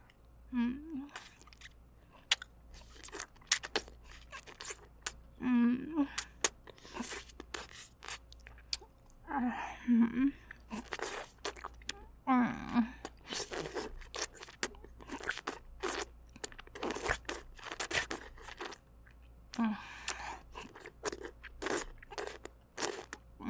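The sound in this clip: Crunchy biting and chewing of food: many sharp, crackling crunches and wet mastication noises in an uneven, steady stream, with brief soft vocal murmurs at intervals.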